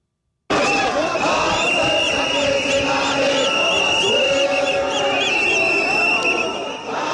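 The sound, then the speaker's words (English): Thousands of marchers fill South Africa's main city streets, demanding that undocumented migrants leave, in a dense, loud roar of many voices with sustained chanted tones running through it, starting abruptly and holding steady. “that's the sound of thousands of people marching in South Africa's main cities today to demand that all undocumented migrants leave the country.”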